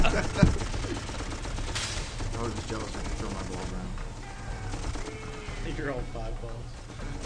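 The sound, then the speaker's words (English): Gunfire from the Xbox 360 video game Darkest of Days crackles in sharp bursts beneath steady talking, with one louder shot standing out near the start. “You're taking fire already.”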